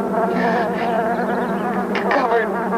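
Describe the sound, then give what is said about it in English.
Bees swarm around a car, producing a dense, continuous buzzing drone that fills the whole stretch, with slight swells in loudness and no pause. “They think she's dead. The bees are all over the car.”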